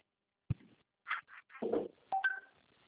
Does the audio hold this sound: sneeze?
no

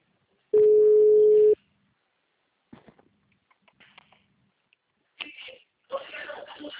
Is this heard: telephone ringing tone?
yes

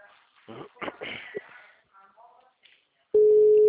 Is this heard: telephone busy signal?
yes

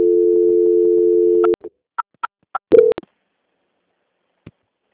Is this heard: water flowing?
no

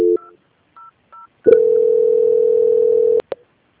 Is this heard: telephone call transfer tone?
yes

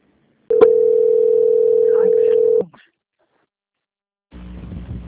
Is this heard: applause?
no

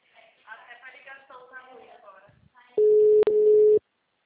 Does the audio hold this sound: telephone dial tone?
yes

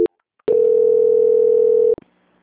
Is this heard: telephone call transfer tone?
yes

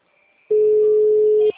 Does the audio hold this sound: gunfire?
no

